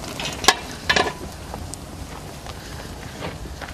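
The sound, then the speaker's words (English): Liquid coming to a boil over a hot fire gives faint bubbling and crackling with a couple of sharp pops early on, then a low, steady sizzling hiss. “We got a little boil. We got a boil? We got a boil. Not bad. Yep. Well, that fire is hot.”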